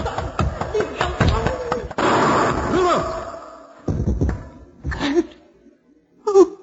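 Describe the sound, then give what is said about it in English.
A single gunshot in a radio drama, fired as a gun goes off during a struggle over it. A sharp crack cuts through raised voices and is followed by a cry, and speech continues afterward. “He had a gun. He was going to kill me. I grabbed his arm and it went off.”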